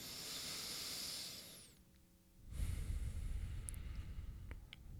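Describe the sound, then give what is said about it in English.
A slow deep breath: a soft, airy hiss drawn out for a couple of seconds, a brief quiet pause, then a lower rushing breath that carries on to the end, all quiet and alone without talk. “So maybe one deep breath to start.”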